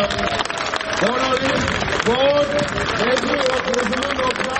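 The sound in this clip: Applause rises from a crowd for a speaker at a traders' protest gathering in Yerevan. The dense, even clatter of many hands runs continuously while a man's voice talks prominently over it.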